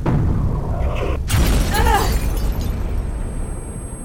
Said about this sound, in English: They're using bombs!